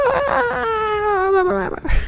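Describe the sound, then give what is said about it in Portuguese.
A voice imitates Toad screaming in Mario Kart, sounding choppy like badly emulated game audio. The high wailing cry slides gradually downward in pitch, then breaks off briefly before a short, lower burst. “Você imitou muito bem o Toad, inclusive. Gritando assim, cortando tudo, como se fosse uma emulação mal feita.”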